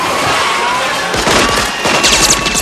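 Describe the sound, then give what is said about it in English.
Gunfire aimed at a spinning, moving cab: from about the midpoint, rapid sharp shots crackle in quick bursts over a loud, noisy background. “Pedestrians dive out of the way as Richter and Helm open fire at the cab, which spins in wild circles.”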